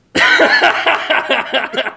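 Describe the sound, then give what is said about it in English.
A short snorting laugh: a quick series of breathy, voiced bursts that start abruptly, then stutter and taper off over about two seconds. “That was a snort.”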